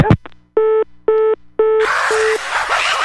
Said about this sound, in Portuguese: Vou ligar de novo, não. Alô?